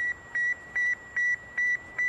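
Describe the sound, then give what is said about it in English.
Radio beeps from the Sputnik 1 satellite, a tiny aluminum sphere with four whisker-like antennas launched in 1957: a steady, evenly spaced series of short, pure-toned beeps over a faint bed of static hiss. “It was 50 years ago that the Soviet Union launched Sputnik 1. It was the world's first artificial satellite. The tiny aluminum sphere with four whisker-like antennas sent the beep-beep-beep”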